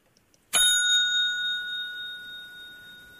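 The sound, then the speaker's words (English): A single bright bell-like ping, sounded to test a phone line, strikes sharply and then rings on as a clear, steady high tone that slowly fades over a few seconds, alone without talk. “If you don't mind, I just need to ping the line.”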